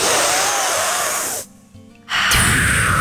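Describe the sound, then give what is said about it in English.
A deep breath taken together by a couple of people: a long airy hiss, a short near-silent pause, then another broad breathy rush of air. “Let's take a deep breath together. Ready?”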